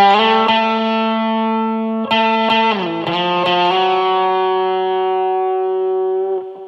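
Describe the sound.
Clean electric guitar tone through the SansAmp side of a Tech21 Fly Rig 5 with a touch of reverb, playing slow ballad-style sustained notes and chords with a few note changes, ringing on before fading out at the end.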